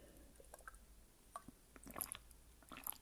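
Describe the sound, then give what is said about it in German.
A sip of a drink, quiet and wet: soft slurping and swallowing clicks spread over about three seconds, with small liquid squishes clustering toward the end. “Aber bei mir ist es dann so, ich muss mal einen Schluck trinken.”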